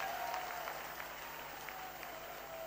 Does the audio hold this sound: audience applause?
yes